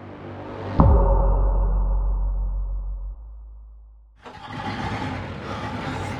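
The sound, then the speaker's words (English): A large Land Rover engine starts at night in a remote place with a sudden loud burst that settles into a deep rumble and slowly fades. A broader, steadier roar then takes over as the vehicle drives. “It's something like 2 a.m. and I'm driving George the Farmer's massive Land Rover in the middle of nowhere.”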